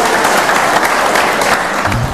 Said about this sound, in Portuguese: Então aplaudam ao Senhor em nome de Jesus.